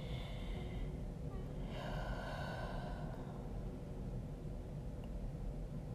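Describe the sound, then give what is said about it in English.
A person pauses to take a deep breath: one long, noisy inhale lasting about a second, heard alone over a steady low background hum. “Some reason I just had to pause and take another deep breath.”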